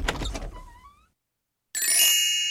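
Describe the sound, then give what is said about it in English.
A door being opened: a rough, creaking grind fades into a brief silence. Then a sustained, bright hissing rush with high ringing tones starts abruptly and runs loud to the end. “He opened the door,”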